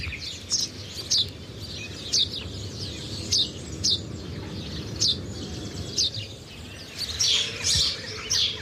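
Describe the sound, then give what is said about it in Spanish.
A house sparrow chirps in a steady series of short, bright, high-pitched calls. The chirps come roughly every half second to second and bunch closer together near the end, over a low, constant background rumble. “Es un gorrión común.”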